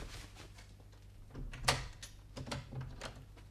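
A door being opened, heard as a few faint clicks and rattles with one sharper knock midway, quiet and without talk.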